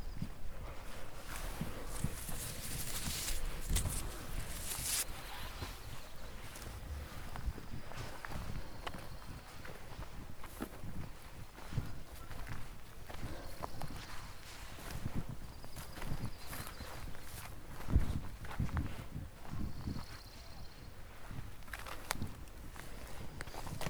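Footsteps of a person walking uphill on an outdoor trail among pines, lupins and soapberries: a steady run of many crunching, uneven steps over a constant rustly background, with no voices.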